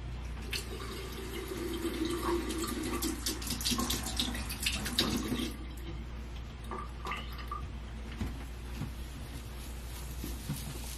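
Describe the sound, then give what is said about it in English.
A paintbrush is wet under a running tap: a steady, faint rush of water with light splashing and spattering throughout. “And the brush, which I shall wet now.”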